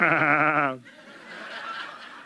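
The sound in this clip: A human voice imitates a goat bleating: one loud, wavering, nasal bleat with a strongly pitched tone lasting under a second, followed by faint low noise.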